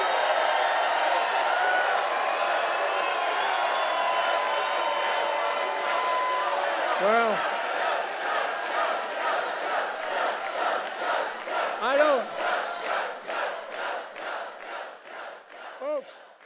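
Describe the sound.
Supporters cheer Joe Biden at a campaign event, a loud burst of crowd shouting and whooping at the start. The crowd then fades under a man speaking in short phrases.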